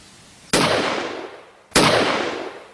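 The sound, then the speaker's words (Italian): Two pistol gunshots ring out about a second apart as a sound effect, each a sharp crack followed by a long fading tail. “sparò su Silvia e Tamara, un colpo ciascuna.”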